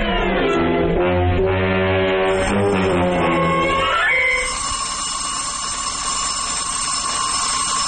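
An alarm clock set for seven goes off an hour early at six, ringing loudly and bell-like for about four seconds. A fainter, steady high tone follows.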